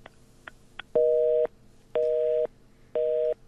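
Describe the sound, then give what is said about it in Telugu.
Busy-style disconnect tone after a phone call is cut off: a few short clicks, then three steady, loud beeps of equal length with even gaps, heard alone without voices. “అయ్యో call cut అయిపోయింది, last call అనుకున్నాను.”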